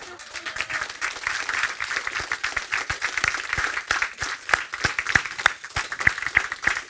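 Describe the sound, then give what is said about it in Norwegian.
An audience applauds to welcome guests onto a stage, with steady, dense clapping that continues evenly throughout. “Hvis det er noen som tør å ikke applaudere ordentlig, så lykke til. Ta dem godt imot.”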